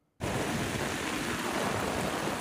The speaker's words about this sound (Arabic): الأمطار ما عم تهدى باللاذقية، ونحن هون بسوق السمك عم نعاني من قصة الصرف المطري.